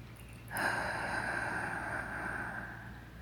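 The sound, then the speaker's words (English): A slow deep breath through the mouth, a faint, soft airy rush that begins abruptly and holds steadily before easing off, alone over a low hum. “Once more, take a deep breath in, hold, and out through your mouth.”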